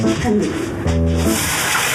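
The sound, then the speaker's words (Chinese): A tap runs with a steady hiss while a dirty rag is rinsed under it, the flowing water continuing beneath people talking. “哎呦，我让你洗手，你怎么洗上抹布了？ 这抹布有点脏，我给它投一下。”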